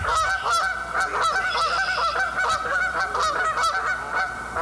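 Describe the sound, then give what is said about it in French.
Canada geese honking in a loud, steady chorus of many repeated, overlapping nasal calls that continue without a break. “C'est le cri de la bernache du Canada qu'on entend au printemps,”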